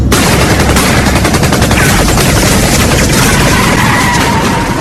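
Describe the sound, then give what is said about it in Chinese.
Machine gun, rifle and pistol fire poured at a black sedan in a roadside ambush, with guards shooting back. Dense, loud gunfire runs throughout as rapid overlapping bursts without pause, and no voices are heard. “机枪、步枪、手枪子弹一起向轿车射来，四五名车上的警卫奋力推开车门朝这边开枪还击”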